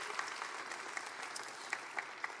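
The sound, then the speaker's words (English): Audience applause welcomes a group from Opelousas: soft, steady clapping with a few sharper individual claps standing out, continuous throughout. “Welcome, big O-Town. Come on, give them all a big hand.”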